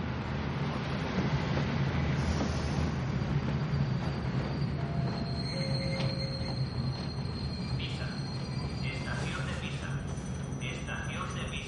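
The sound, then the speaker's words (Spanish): A train starts to move with a steady, loud rolling rumble of rail cars. Thin metallic wheel squeals and a few clicks rise over the noise in the second half. “El tren se pone en marcha.”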